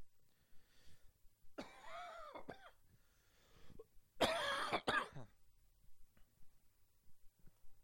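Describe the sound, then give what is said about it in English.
Harsh human coughing in two bursts: a throaty first bout, then a louder cluster of rough coughs, with quiet gaps between them. “Hold on, excuse me. I gotta cough this out real quick.”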